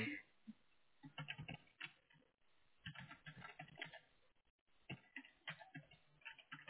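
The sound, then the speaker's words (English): Typing an answer on a computer keyboard: quick, irregular clicks and taps of the keys in bursts with short pauses, moderately faint throughout. “Just a moment, please. I have to type your answer.”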